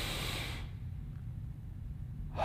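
A deep breath: a breathy rush of air at the start, a quiet pause, then a second breath beginning near the end, fairly soft and with no talking.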